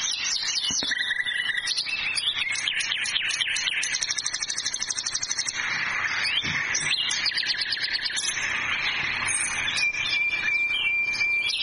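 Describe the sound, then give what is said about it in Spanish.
Nightingale song, a lively run of quick, high chirps, trills and repeated notes that changes phrase every few seconds, bright and continuous with no voices. “¿Lo están escuchando? ¿Saben quién es? Este cantor nato es el ruiseñor.”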